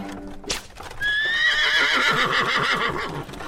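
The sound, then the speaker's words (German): A mare whinnies loudly while pulling a cart at a brisk trot, her high neigh held over a steady rhythm of clip-clopping hooves that continues to the end. “Er peitschte die Stute, die nach einem Satz zur Seite wieder in flotten Trab fiel.”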